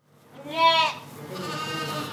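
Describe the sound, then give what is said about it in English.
A sheep bleats loudly on a student-run college farm barn during lambing season: one wavering, mid-pitched cry swells and breaks off, followed by a softer, sustained wash of livestock noise. “It was sheep birthing season last month at Sterling College, and during a mid-March visit, the tiny liberal arts school, which has a farm run by students, had already welcomed 15 lambs.”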